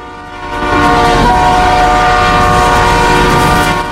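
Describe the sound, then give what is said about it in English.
An express train clatters past at speed, a loud, sustained rush of wheel rattle and rumble with a steady horn tone held above it from start to finish. “Art hurls himself at Simon, pulling him out of the train's path as it clatters past at speed. Another express passes in the opposite direction.”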